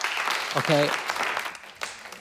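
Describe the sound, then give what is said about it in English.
Audience members clap their hands after being asked to clap if they lived alone during lockdown. The clapping is brief and scattered, with a voice speaking over it. “Clap your hands, anyone who was living alone during lockdown. Clap.”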